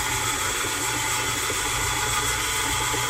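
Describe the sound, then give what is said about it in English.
A stand mixer with a paddle attachment mixes dough, giving a continuous, even motor whir and low hum throughout with no talk. “mix up the dough, put the paddle attachment on, and crank it into place,”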